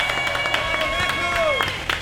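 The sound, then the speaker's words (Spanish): Applause cheers on the arrival of Friday morning, a brief, even patter of clapping running beneath a voice. “Un aplauso para el viernes, por favor.”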